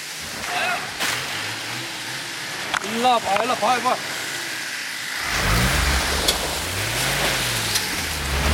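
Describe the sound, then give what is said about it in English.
A heavily loaded 4x4 cargo vehicle's engine revs hard while it is stuck in wet, icy slush. The pitch surges up and down over a steady rushing hiss. Voices are heard briefly before the engine roars in. “One of our vehicles is now stuck in the slushy mess. Real icy in here and wet, and so much weight in the cargo vehicles that he just can't get through it.”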